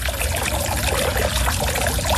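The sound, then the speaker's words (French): Water splashes steadily from small jets in the decorated fountains of a French-style formal garden, a dense, even hiss and patter with no pauses and no voices. “il y a 4 fontaines décoré de coques, de fleurs, et il y a des petits jets d'eau.”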